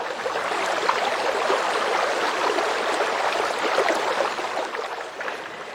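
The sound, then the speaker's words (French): Water trickling down from one mountain to another, a steady, even rush of flowing water that holds at the same level throughout with no voices. “Il voit de l'eau qui ruisselle d'une montagne à une autre sans passer par la vallée.”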